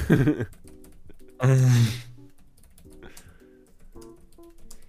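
Keyboard keys are tapped while someone types a message, making scattered light clicks over a faint tonal background. A brief, louder vocal sound rises near the start.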